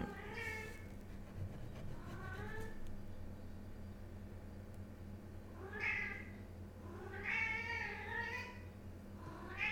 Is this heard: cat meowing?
yes

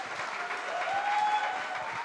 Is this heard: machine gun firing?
no

